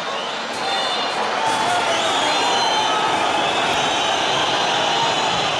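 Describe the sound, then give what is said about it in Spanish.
Stadium crowd whistling in disapproval after a Sporting home win over Celta Fortuna: a loud, sustained roar of crowd noise threaded with many shrill whistles, holding steady throughout. “Una sonora y mayoritaria pitada.”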